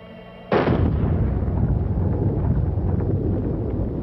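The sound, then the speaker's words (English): A single high-powered .30 caliber rifle shot blasting a Masterlock model 15 padlock: a sudden, very loud crack followed by a sustained, roaring rumble that barely fades to the end. “With this high-powered 30 caliber rifle, we're going to try to blast open this Masterlock model number 15.”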